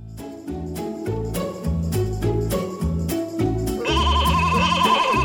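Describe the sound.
Sheep bleat together as a flock, overlapping and loud, forming a steady, continuous chorus throughout.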